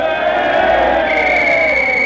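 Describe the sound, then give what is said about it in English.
Restless crowd noise at a football game: a loud, continuous roar of many voices with a sustained droning tone and no clear words, holding steady for about two seconds. “The last half is about to start. The crowd is getting restless.”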